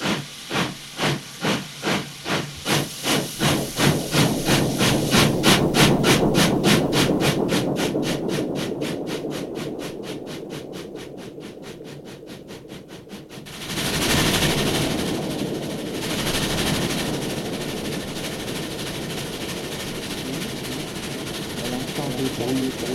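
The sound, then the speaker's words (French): A moving train gives a rhythmic chugging pulse that quickens over several seconds, then gives way to a steady, loud rushing hiss. “Les mouvements du train, la fatigue endort Françoise.”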